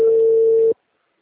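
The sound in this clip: Telephone ringback tone on an outgoing call that is still ringing: a single steady, mid-pitched beep lasting under a second, then an abrupt cut to silence.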